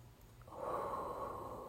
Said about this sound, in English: Take a deep breath. Breathe in.